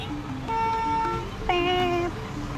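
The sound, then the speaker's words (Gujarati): Road traffic with two car-horn blasts, heard while driving in traffic: each blast is a bright, sustained tone lasting about half a second. A steady, moderately loud rumble of passing vehicles runs beneath them. “Okay again let me tech you through the noise of traffic”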